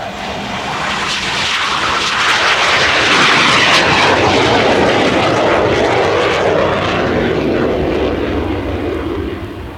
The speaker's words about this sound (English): Wow, we must be near an airport.